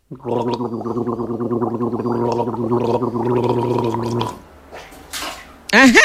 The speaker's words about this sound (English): Come on, rinse mouth.